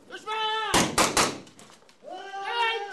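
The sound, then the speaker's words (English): Young Afghan commandos sparring in a mixed martial arts demonstration of simulated combat: a quick run of heavy slapping thuds and impacts, with voices talking just before and after. “This is the sound of simulated combat. Young Afghan commandos demonstrating for General Dunford mixed martial arts.”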